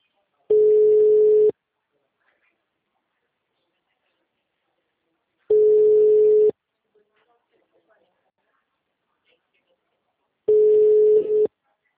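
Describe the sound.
Telephone ringback tone while a call is redialed: three steady, single-pitched tones, each about a second long, separated by long silent gaps.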